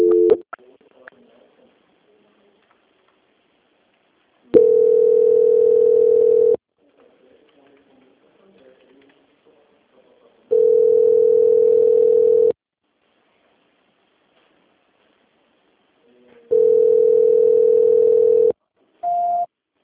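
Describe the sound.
A telephone tone plays while a call is being transferred: three long, steady single-pitch tones of about two seconds each, evenly spaced with silence between, plus brief tones at the start and end.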